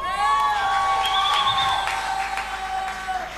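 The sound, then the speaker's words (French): Children shout and cheer for joy at a Christmas celebration service in church, a dense, excited crowd of high voices with whoops rising above the steady roar throughout. “Est-ce que vous pouvez faire des cris de joie?”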